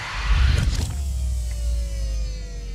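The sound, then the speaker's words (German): Mechanical whirring of a spacecraft's command bridge retracting: a deep rumbling surge lasting about a second, then a steady motor hum whose faint tone glides slightly downward. “Ich fahre die Kommandobrücke ein.”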